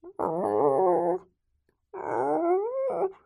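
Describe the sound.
A dog whimpering in two drawn-out, whining cries with wavering pitch, the second climbing higher toward its end, separated by a short silence.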